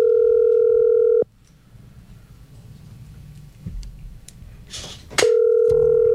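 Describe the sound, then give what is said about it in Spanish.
Telephone dial tone as a call is placed to someone in Quibdó, in Colombia's Chocó department: a steady, loud tone holds for about a second, cuts to low background noise with a brief burst, then the same tone returns. “Esperemos a ver si le entra la llamada.”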